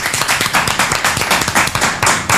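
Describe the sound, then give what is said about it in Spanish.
Steady applause for participating radio stations, many hands clapping in a dense, even wash of sound with no voices rising above it. “Supersónica, un aplauso para estas radios también.”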